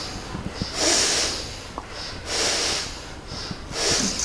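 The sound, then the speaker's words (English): Rhythmic breathing during a breathing exercise: three evenly spaced, airy rushes of breath, likely through the nose, rise and fade in a steady pattern. Each breath is soft and breathy, with quiet pauses between them. “If the breath is not rhythmic, you need more practice. Continue. A rhythmic breath helps you to take your mind very”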